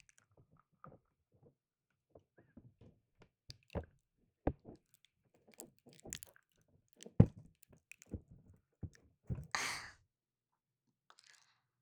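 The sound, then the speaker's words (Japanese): Teeth gnaw and rub along the edge of an ear: faint, wet squishing and clicking bites come in scattered bursts, with a breathy sigh near the end. “ガシガシと歯で耳の縁をこすってみたり。”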